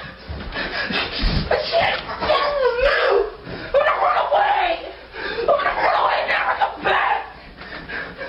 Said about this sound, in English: What you're hearing is a teenage boy throwing a tantrum because his mom said he couldn't play his video games anymore.